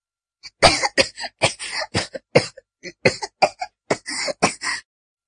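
A man coughs hard after choking, with many harsh, explosive coughs in uneven clusters separated by short silences, loud and alone.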